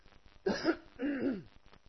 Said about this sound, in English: I'm going to cough one more time.